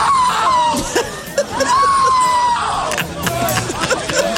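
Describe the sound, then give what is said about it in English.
A man screams in a few long, high wails over a dense, noisy concert crowd after a performer walked off stage, with shouting and crowd chatter throughout. “Listen to this man scream.”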